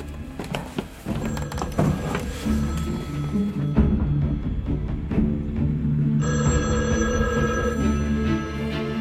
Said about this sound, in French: il y a le téléphone qui sonne à la mairie